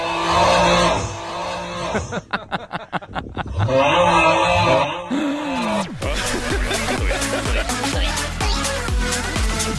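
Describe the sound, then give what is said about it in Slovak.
Many men snoring while sleeping together in a heap, an overlapping chorus of deep rasping snores and groaning tones with rapid fluttering pulses in the middle, loud throughout. “Ale aj tak si predstavujem, ako znel asi ten orchester taký nočný, keď 24 chlapov na jednej kope spí. Asi nejak takto.”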